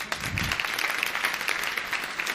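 Brief round of applause in a sales training class: dense, steady clapping at moderate loudness, continuous with no pauses.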